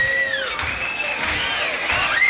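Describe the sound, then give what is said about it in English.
A concert crowd cheers while waiting for the band to return for an encore: a loud, continuous wash of voices and noise with shrill whistles gliding up and down in pitch throughout. “Obviously, the crowd in a good mood.”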